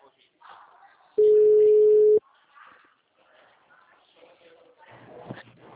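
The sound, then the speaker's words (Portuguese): A phone busy tone after a dropped call: one steady, low-pitched beep lasting about a second, loud against quieter voices talking before and after it. “Ai, caiu a ligação. Caiu.”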